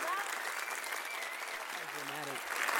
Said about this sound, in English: I want you all to really put your hands together really loud for Shatezkat Martinez.